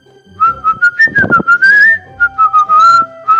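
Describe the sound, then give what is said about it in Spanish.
Clear, bright whistling in many quick short notes, with a longer held and wavering phrase in the middle. Loud and alone, with a few faint low thumps underneath. “Cuando tiene hambre la pilaraña, que es un bicho horrible, silba.”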